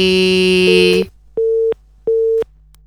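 A telephone busy tone sounds after a phone-in call is cut off: two steady, mid-pitched beeps of equal length, evenly spaced, following about a second of dense buzzing tone.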